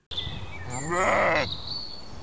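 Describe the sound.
A sheep gives one loud, wavering bleat in a pasture in a city green belt, rising out of steady outdoor background noise and then fading back to it, with no voices.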